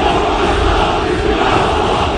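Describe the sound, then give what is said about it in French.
Hundreds of Turkish football fans chant for Mohamed Salah as he arrives at Istanbul's Atatürk Airport, a loud, continuous crowd roar that rolls on without a break. “Ils étaient donc plusieurs centaines à chanter à la gloire de Mohamed Salah quand le pharaon a fait son apparition à l'aéroport Atatürk d'Istanbul”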